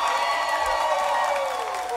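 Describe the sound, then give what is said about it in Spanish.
Audience applause and cheering for a performer, mixed with a sustained whistle-like tone that falls in pitch near the end; the whole burst is brief and moderately loud. “Un aplauso para Free Comer.”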